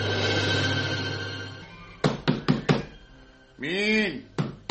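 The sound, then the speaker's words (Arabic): Knocking on a door in an Egyptian radio drama: after a stretch of steady background hum, four quick, sharp raps land in a row, then a voice calls out briefly and another knock follows. “مين اللي بيخبط؟”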